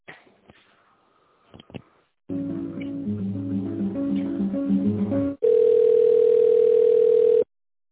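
Telephone tones while an office call is transferred: faint clicks, then a run of shifting electronic tones, followed by a loud, steady single tone that cuts off abruptly.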